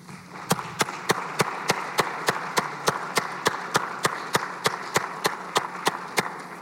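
Applause in a Senate chamber as guests are welcomed: a steady, evenly paced run of sharp claps repeats throughout, standing out over a dense, hissing wash of background noise.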